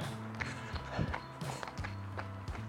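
Footsteps of people running on a 5 km run, a quiet series of rhythmic thuds repeating at a steady, brisk pace throughout.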